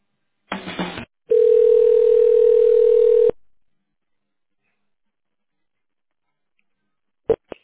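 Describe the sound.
Telephone ringing tone on the line while a call is transferred to another person: a short noisy burst, then one steady, mid-pitched tone lasting about two seconds, followed by silence and a faint click.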